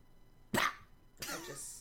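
Coughing from a chip stuck in the throat: a sharp, loud cough burst, a short pause, then a longer, rougher hacking burst.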